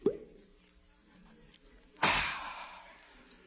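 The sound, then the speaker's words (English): Bottle being opened for a drink: a small pop at the start, then a sharper burst with a hissing tail that slowly fades. “I think I'll open a bottle and take a slug now.”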